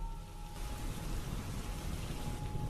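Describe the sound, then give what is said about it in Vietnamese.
Rain suddenly pours down from a night sky, a dense, steady hiss of falling water that holds at an even level throughout, with no voices. “trên bầu trời ì ầm đổ mưa”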